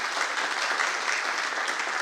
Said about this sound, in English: So if you want to give them a hand and welcome them.